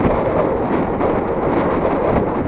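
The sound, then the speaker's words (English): Steady wind noise while cycling on a track bike along a city street into a headwind, a loud, continuous roaring rush with no breaks and no voices. “Just took a left onto Valencia, back into the wind again.”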